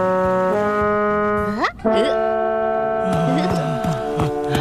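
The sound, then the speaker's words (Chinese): A ship's steam whistle sounds on and on in loud, sustained harmonic tones whose pitch shifts between notes, with a sharp upward sweep near the middle before the tone resumes. “咦， 这汽笛响起来没完没了，我实在是顶不住了。”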